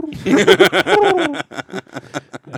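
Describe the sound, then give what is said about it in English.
A voice imitates pigeon cooing with a throaty, warbling tone that swells and dips, followed by short, choppy bursts of chuckling. “he was making pigeon noises at JVR. He would just skate by him and be like,”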